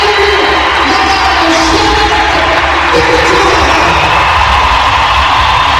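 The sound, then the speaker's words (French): Crowd ovation at a hockey game, a loud, sustained roar of cheering and whooping that stays at a constant, dense level without a break. “Alors voilà, on entend l'ovation, on a entendu là l'annonce.”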